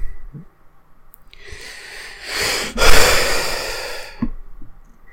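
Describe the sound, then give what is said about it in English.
Heavy breathing as someone catches their breath: one long, loud, airy breath that swells to a peak and then fades, with quiet stretches before and after. “I need to catch my breath.”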